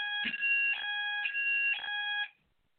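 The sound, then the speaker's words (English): A fire alarm sounds during a test, giving a loud, high, harmonically rich buzzing tone with regular pulsing accents about every half second before it cuts off abruptly. “I think that might have been a fire alarm test.”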